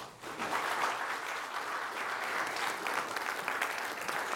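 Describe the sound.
Audience applause welcomes a guest professor to the stage at a university talk: steady, dense clapping from many hands that holds at an even level throughout, with no voices over it.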